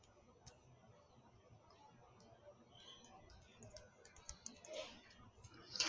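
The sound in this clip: Faint, rapid clicking of a computer keyboard as a chat greeting is typed, light irregular keystrokes that grow denser and louder toward the end.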